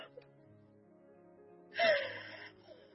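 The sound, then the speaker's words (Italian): A woman lying on a bed cries, muffling her moans in a pillow: one breathy, gasping sob rises out of quiet, with faint sustained tones running underneath. “La donna, rimasta sul letto, piange, soffocando il mugolio nel cuscino.”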